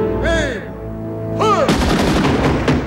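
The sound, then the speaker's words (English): Rifle volley of a gun salute: in the second half, dense sharp cracks follow one another in quick succession over sustained music. “Gun salute cracks Danny's composure and tears run down his cheeks.”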